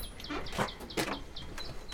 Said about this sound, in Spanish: Mira as aves, que é para comer. Mira. Estão por aí.